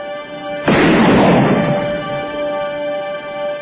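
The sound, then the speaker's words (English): A single loud blast from a gun firing a cartridge: a sudden sharp burst that decays over about a second, then a steady tonal hum that runs throughout. No voices. “Cartridge and all. This is what I love about it. He really caught that thing. That gun shoots a cartridge. I think he really blew up for that.”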